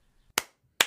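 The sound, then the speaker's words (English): Two sharp, isolated hand claps from a host applauding his guest, crisp and percussive with a short silence between them. “Guys, that's the sound of me clapping for my guest, Justin Paperny”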